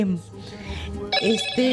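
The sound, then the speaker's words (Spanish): A telephone rings with an incoming call at a radio station, a repeating electronic trill with a voice talking over it. “Ok, aquí tenemos ya otra llamada.”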